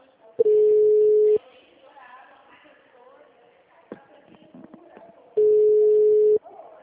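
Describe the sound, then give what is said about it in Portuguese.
Telephone ringback tone while calling a client: two steady, low-pitched tones of about a second each, several seconds apart, with faint voices in between. “Tô ligando pro cliente.”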